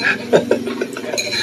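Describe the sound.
Chopsticks clinking against a bowl while someone eats Indomie instant noodles, a few light, sharp clicks spaced irregularly over a soft, steady background.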